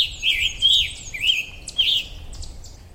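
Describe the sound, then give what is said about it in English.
Song of a scarlet tanager, a small songbird blown off course far from its usual range: about four short, hoarse, burry warbled phrases with brief gaps between them, fairly faint over a quiet low background. “That's the sound of a tiny little bird, a scarlet tanager, that normally migrates no further than from the eastern United States and lowland South American woods.”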